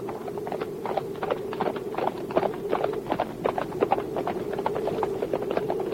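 Horses ridden away at a trot, heard as many quick hoofbeats in a steady, even rhythm. The clatter lasts the whole time over a low, constant hum.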